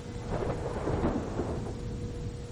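A storm roars with steady, dense rain and wind, while a low thunder rumble swells briefly in the middle before settling back into the constant downpour.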